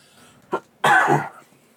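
Coughing and choking from a man: a short cough, then a longer, harsher rasping cough burst, loud and with no talk over it.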